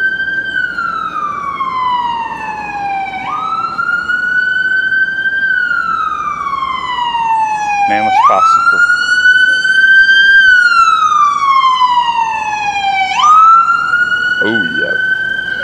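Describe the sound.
A loud wailing siren on a vehicle, its tone sliding slowly down and back up in long cycles of a few seconds, with a quick upward jump between some sweeps.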